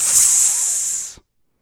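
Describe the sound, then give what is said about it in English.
A voice imitates a snake's hiss with one sustained, sharp, airy hiss lasting about a second that cuts off abruptly into silence. “and then a snake, and it goes,”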